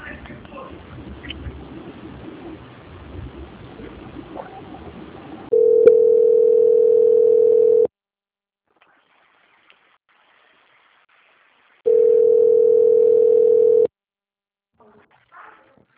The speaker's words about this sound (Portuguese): Eu peço que o senhor aguarde linha, que eu vou estar transferindo agora para o setor de qualidade do banco e vai dar continuidade de contratação.